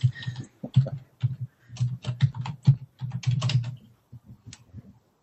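Rapid typing on a computer keyboard while logging in as administrator on a self-hosted online course site, with many crisp keystroke clicks in quick bursts separated by short pauses.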